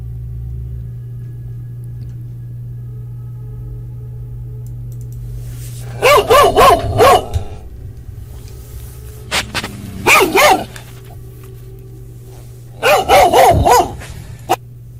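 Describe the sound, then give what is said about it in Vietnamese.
A dog barks weakly at night in a remote, deserted place, in three short clusters of sharp barks separated by pauses, over a steady low hum. “Có tiếng con chó yếu ớt sủa trong đêm tối vang lên.”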